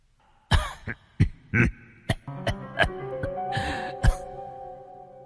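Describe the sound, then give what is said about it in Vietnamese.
Many dry, human-like coughs and throat-clearing bursts come from a zombie creature in a shaking stone cave. The coughs are short and sharp, arrive in an irregular series, and are separated by near silence. “con cương thi kia lúc này phát ra âm thanh ho khan như người.”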